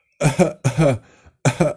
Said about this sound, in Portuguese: grava aí a minha tosse, a ver se estou com o corona.